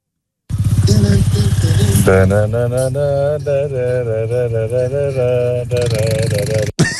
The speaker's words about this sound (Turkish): Motor motor. Motor canım o motor.